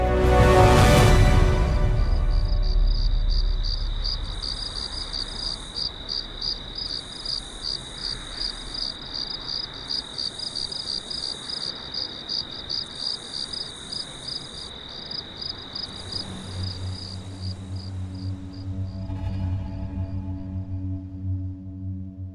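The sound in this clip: Crickets chirp in a steady, high, rapidly pulsing trill that runs through the whole stretch after a brief louder noise at the start, with a low hum joining near the end.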